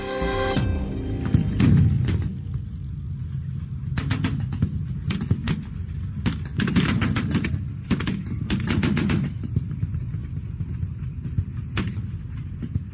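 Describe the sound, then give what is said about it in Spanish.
Archival recording of First World War artillery fire in France: many sharp, irregular bangs and thuds over a dense, crackling low rumble. “Así sonaba la Primera Guerra Mundial en Francia. Son sonidos reales de artillería, de archivo.”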